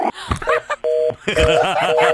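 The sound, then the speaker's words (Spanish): Telephone tones while calling someone back: a steady two-pitch tone sounds in a couple of bursts, mixed in among loud overlapping voices. “Vamos a marcarle atrás.”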